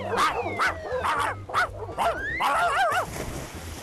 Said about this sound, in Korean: 욕심많은 개가 입을 크게 벌리고 짖어대는 순간